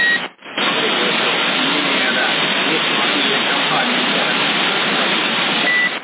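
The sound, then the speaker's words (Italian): Unmodulated CB radio carrier hiss on a channel near Sassari: a steady, dense band of static that drops out briefly near the start and then continues evenly. “avrei immaginato un segnale migliore con la portante muta, guarda la portante muta”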